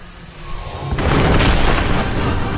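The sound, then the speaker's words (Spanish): A deep roaring blast from a structure cracking apart amid smoke and fire as gas reacts with mineral veins through a breach in a gravity shield. A low hum comes first, then a sudden loud burst that keeps rumbling. “El gas está reaccionando a las vetas de mineral. La estructura se resquebraja entre humo y fuego.”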